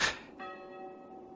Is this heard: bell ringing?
yes